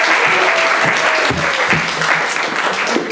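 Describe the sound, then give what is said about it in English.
Enthusiastic audience applause at a live storytelling event as the next storyteller is welcomed to the stage: dense, steady clapping that fills the whole moment at a loud, even level. “Big round of applause, please. And big round of applause to Kelsey.”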